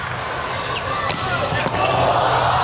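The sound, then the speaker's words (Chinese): A volleyball serve in a match goes for an ace that gives Slovenia set point. Two sharp ball strikes stand out against steady arena noise, with commentators talking throughout. “哇！这个真是敢发呀。 是的， Ace 球帮助斯洛文尼亚队拿到了第一局局点。”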